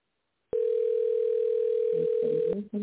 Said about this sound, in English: I'm not sure what's going on. I'm dialing the right number.